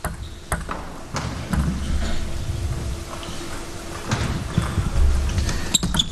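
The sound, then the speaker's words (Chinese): A table tennis serve clips the net during a match, then play goes on: many light, sharp ping-like ball clicks are scattered across the stretch over a steady low rumble of background noise. “换了一个逆侧，但是发球擦网， 看看擦网之后的这个球”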